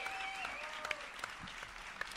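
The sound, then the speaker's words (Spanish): Applause from an auditorium audience of roughly 8,000 at a live comedy festival event: dense, steady clapping that fills the whole moment, with a few sharper individual claps standing out over the wash. “¡Un aplauso!”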